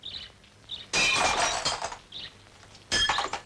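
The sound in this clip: Window glass shattering in two loud crashes: the first a longer burst with tinkling shards trailing off, the second shorter and sharp. Faint high chirps sound in the quiet stretches before and between them.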